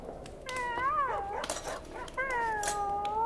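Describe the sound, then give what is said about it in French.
A dog howls in long, wavering cries that bend up and down in pitch. Two drawn-out howls are separated by a brief break, fairly loud throughout, with no talk. “c'est notre maître, le baron de Sigognac, qui nous revient avec le chien Miro.”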